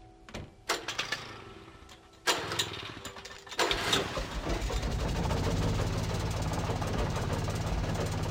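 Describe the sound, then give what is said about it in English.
An old generator in a shed in a video game sputters through a few start attempts. It then catches and settles into a steady, rumbling, knocking drone that runs to the end. “An old generator had been connected to the power cable.”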